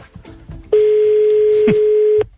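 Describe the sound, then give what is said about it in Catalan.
A telephone dial tone opens a recorded phone call: a single steady, unbroken tone holds for about a second and a half between faint, softer sounds before and after. “Vinga, anem a fer la trucada. És real, ara escoltarem la trucada que acabem d'enregistrar.”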